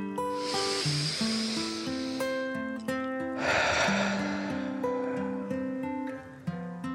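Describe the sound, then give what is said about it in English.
A deep breath in and then out: two long, soft airy hisses, one at the start and one midway, over gentle background music with sustained, stepping tones. “Then, one more deep breath in and out.”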